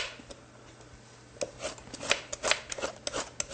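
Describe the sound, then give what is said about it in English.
A vegetable peeler scraping down the skin of a rutabaga, quiet at first, then many short, rasping strokes in quick, uneven succession over a low steady hum. “If you want to do it with the peeler, you can do it with the peeler just by peeling it down like this. Make sure you have a good peeler though.”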